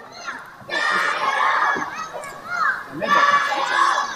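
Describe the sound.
Teammates shout and cheer for a young girl boxer at a boxing match, children's voices rising in two loud bursts of cheering separated by a brief lull, after a short faint call at the start.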